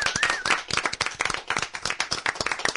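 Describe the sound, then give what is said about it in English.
Audience applause for a child honored as Kid of the Year: dense, loud, steady clapping from many hands that runs without a break. “How about a hand for Rosie?”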